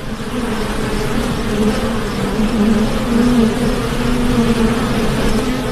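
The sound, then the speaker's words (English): Insects buzz in summer heat during a drought, a swarm producing a loud, steady drone with a low hum running unbroken through the whole clip. “In fact, thousands of little insects loved the heat.”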